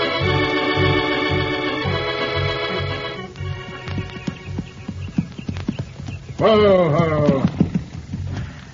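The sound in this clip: Horse hooves clip-clop in a steady rhythm as a rider comes up a trail in a western scene, with music early on and a voice calling out briefly near the end.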